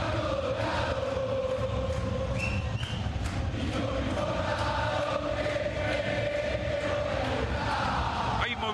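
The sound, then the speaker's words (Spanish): Crowd roar from a football stadium during a Boca vs Huracán match, a dense, steady wall of voices chanting and shouting without a break through the whole stretch. “Escuchen el público.”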